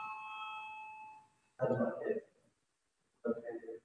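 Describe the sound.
A voting bell rings during a parliament session, a steady electronic chime lasting about a second and a half before fading, followed by two short bursts of speech.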